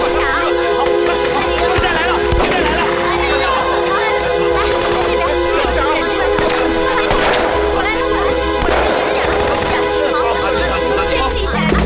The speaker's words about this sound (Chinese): 不对，这不是鞭炮声，枪声。